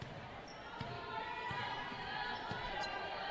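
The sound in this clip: A basketball is dribbled on the court during a women's basketball game. A few faint, dull bounces sit under a steady wash of crowd noise.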